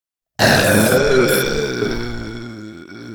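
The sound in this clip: A long, loud burp rolls out for about three seconds. It is a single sustained, throaty eruption that slowly fades toward the end.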